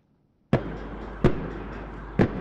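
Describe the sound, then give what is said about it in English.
Tear gas shots fired by riot police at protesters in Santiago, Chile, during unrest over inequality: three loud, sharp bangs spaced unevenly apart, each with a long echoing tail, following a moment of near silence. “Tear gas shots echoed through Chile's capital on Wednesday.”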